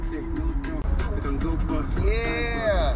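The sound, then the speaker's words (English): Steady road and engine rumble from a car driving on Interstate 87 South through New York toward Brooklyn, a continuous low drone running beneath a man talking. “Hey, so I'm driving through New York right now.”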